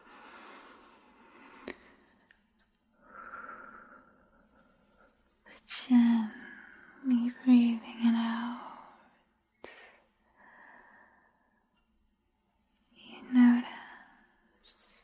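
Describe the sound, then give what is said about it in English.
Slow, deep breaths and soft sighs during a whispered guided sleep hypnosis, airy and gentle, rising and fading between quiet whispering, with a few stronger breathy swells in the middle and near the end. “Slowness, starting with a deep breath in,”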